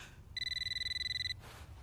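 A telephone rings once with a bright electronic trill that pulses rapidly for about a second, fairly faint over a low background hum, then stops.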